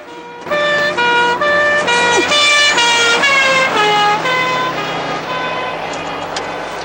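A police car siren sounds as the car races past on a road beside a metal farm gate, a loud two-tone wail alternating high and low notes about every half second, easing slightly toward the end.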